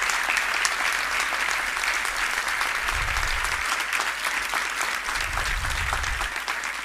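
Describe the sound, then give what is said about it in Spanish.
Audience applause at a benefit concert: dense, steady clapping that holds an even loudness from start to finish with no pauses. “Un aplauso también por ellos, por favor.”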